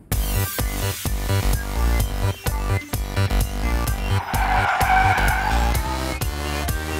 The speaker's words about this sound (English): This year, we're going to calculate pi experimentally with a vehicle losing control.